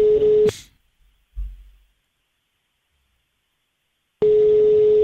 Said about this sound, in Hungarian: Na, hívjuk a naphallgatóját.